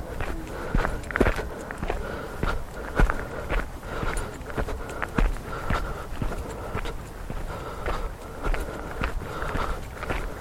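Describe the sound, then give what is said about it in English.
Footsteps walking up a track: many firm steps at an even walking pace, fairly faint and continuing through the whole clip. “That's pointing south as we walk up this track.”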